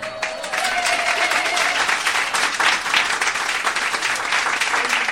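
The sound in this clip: An audience at a French stage event applauds, with dense, steady clapping that stays loud throughout.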